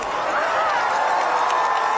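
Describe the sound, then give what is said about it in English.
A crowd gathered outside Gemelli Hospital cheers and shouts as Pope Francis appears on the balcony. Voices blend into a loud, sustained roar with no pauses. “As the Pope appeared from his balcony of Gemelli Hospital, the crowds that had gathered to see him cheered and shouted his name.”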